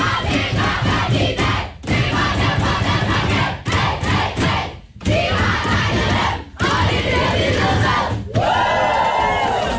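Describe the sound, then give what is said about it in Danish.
Danish women's national football team whooping and shouting in their locker room after a 4-1 win over Serbia: loud, dense group cheering in several bursts with brief dips between them, ending on a high yell. “Det er lyden af de danske fodboldskvinder, det danske landshold for kvindefodbold, som altså var ret begejstret i omklædningsrummet i går, efter de havde slået Serbien”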